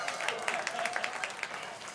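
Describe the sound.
Audience applause greets a guest invited up on stage: dense, steady clapping fills the whole two seconds at an even, moderate level with no pauses.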